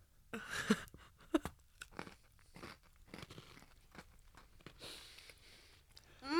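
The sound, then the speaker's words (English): Mini gingerbread cookies are bitten and chewed: a few sharp crunches early on give way to softer, repeated chewing and crumbling, fairly quiet, with no talk. “Let's try the mini gingerbread people because they look delicious.”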